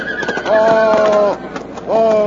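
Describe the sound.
Horse neighing near soldiers and a tank: two loud, tonal whinnies, the first long and the second cut short, over scattered hoof clops.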